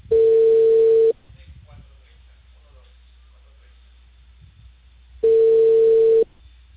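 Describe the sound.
A telephone line tone sounds after a call is cut off: two steady low beeps about a second long each, separated by a long pause of faint background hiss.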